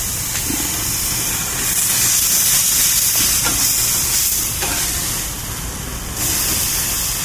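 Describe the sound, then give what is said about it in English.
Burgers sizzle and flame on a grill, a loud, continuous hiss with small crackles that swells and dips in strength as the fire flares, with no voices. “There's burger number two flipped. Good Lord, there's still plenty of flambeau on that one, too. You can flip over fire.”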